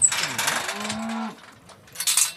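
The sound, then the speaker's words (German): Cattle moo on an organic farm in the Dillingen district, where the cows graze on pasture every day. A low, steady moo sounds in the middle amid rustling and shuffling noises, and a burst of broad noise comes near the end. “Die Kühe vom Biohof Speinle in Weisingen im Landkreis Dillingen dürfen jeden Tag auf die Weide.”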